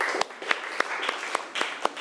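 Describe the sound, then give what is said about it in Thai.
Students in a classroom clap together in a steady rhythm, with evenly spaced sharp claps over a faint hiss. “นักเรียนปรบมือให้เพื่อนหน่อยค่ะ”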